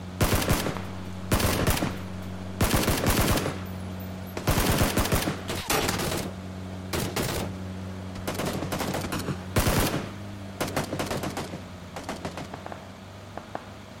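Automatic gunfire in a video game, fired from vehicles including a dune buggy. Loud rapid bursts repeat many times with short gaps between them, and the later bursts are quieter and more scattered.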